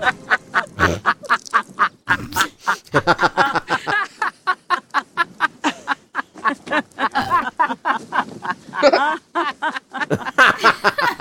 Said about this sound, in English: Is that first part, is that an actual geese or is that laughing? That sounds like geese. Just actual geese.